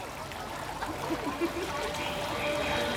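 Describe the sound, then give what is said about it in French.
Fountain water falls and trickles in a soft, steady splash, with faint gurgling running under the whole stretch. “Plusieurs jeunes filles sont assises au bord de la fontaine. L'eau tombe sur leurs épaules nues.”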